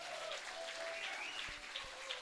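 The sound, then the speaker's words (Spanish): Church audience clapping during a sermon: a faint, even wash of many hands beating together, with a few brief thumps near the end. “Dele palmas al Señor con todo el corazón.”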